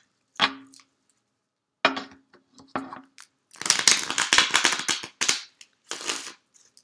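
Tarot cards are shuffled and drawn in a few short papery riffles and snaps, followed by a longer, denser flurry of shuffling and a final brief flick.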